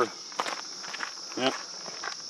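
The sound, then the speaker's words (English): Footsteps of runners walking through a walk break on a long 20-mile run, a few soft, uneven steps under a steady high insect chirring. “Well, we're just going to walk through this.”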